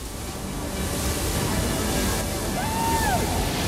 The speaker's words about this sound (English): the pair are silhouetted against the powerful surf, riding side by side.